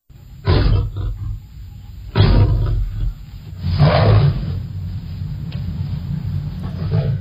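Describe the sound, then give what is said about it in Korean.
A fearsome lion roars three times, each a deep, loud, rumbling burst, with quieter low growling in between. “그것은 너무도 무서운 사자였습니다. 사자는 당장이라도 앤드로클레이스를 잡아먹을 것처럼 울어댔습니다.”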